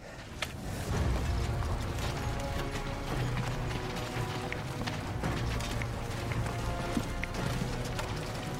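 Galloping hooves of a rider's horse, a dense, rapid clatter of beats that stays loud and steady from start to finish.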